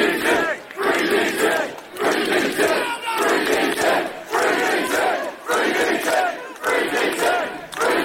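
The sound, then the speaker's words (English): A crowd of demonstrators protests outside a police centre, a loud, dense mass of shouting voices that swells and dips in a steady chanting rhythm throughout. “That was the sound of demonstrators outside the police centre protesting the arrest of Daniel Thomas, better known as Danny Tomo.”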